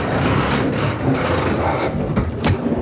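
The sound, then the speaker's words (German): Crates rolled up a ramp into a vehicle make a continuous, heavy low rumble with rattling texture that holds steady throughout, with a few brief knocks near the end. “jetzt können wir einfach mal die Kisten einfach hochfahren. Passt, fahren wir rauf über die Rampe.”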